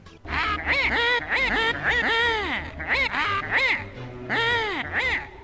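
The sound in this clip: A video game villain voice chatters repetitive gibberish syllables in quick, nasal, quacking bursts, grouped in rhythmic clusters of rising and falling pitch, moderately loud and nearly continuous.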